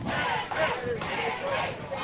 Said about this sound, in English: The Flatonia crowd is going to respond. Like I mentioned, with the way the intensity has picked up, expect cheers on every call from them over there.